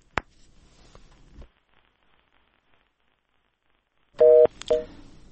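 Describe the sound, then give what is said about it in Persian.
Telephone tones on a radio call-in line: a sharp click and faint static on a mostly quiet line, then short, loud bursts of stacked electronic tones near the end. “تماس های شنونده های ما را میگیریم، بفرمایید، رادیو آزادی است”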